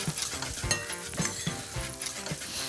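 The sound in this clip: Paprika powder, along with salt and pepper, toasts in a pan with a steady, crackling sizzle. Light clinks of utensils come through now and then.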